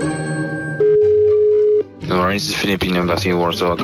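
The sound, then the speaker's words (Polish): A telephone dial tone sounds while an embassy is being called: one steady, low, unbroken tone that lasts about a second, then voices begin talking over a faint background. “A jakby tak teraz zadzwonić do ambasady Filipin?”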